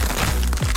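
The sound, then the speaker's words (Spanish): Crisp tortilla chips crunch in one short, dry, crackly burst that lasts under a second. “Atrévete a probar el sabor único de Crunch, las tortillitas chips más crujientes”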